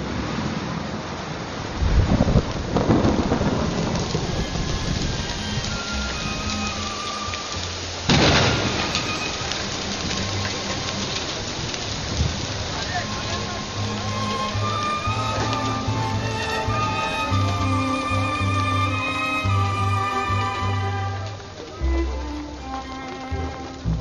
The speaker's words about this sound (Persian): راستی راستی داره بارون میاد.